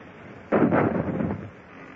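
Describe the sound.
Single cannon shot fired from a sailing warship: a sudden, heavy boom that rumbles and decays over about a second, with no voices.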